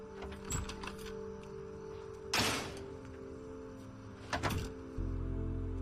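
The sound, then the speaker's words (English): A door is opened as someone steps in from a porch: a louder scraping burst near the middle and a second shorter one later, over a steady low hum. “She opens the door and steps inside.”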